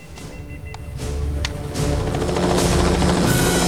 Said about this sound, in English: A blue and white police helicopter flies over Boston's high-rise buildings, zooming between a sleek-mirrored skyscraper and a tower block. The chopper descends towards a square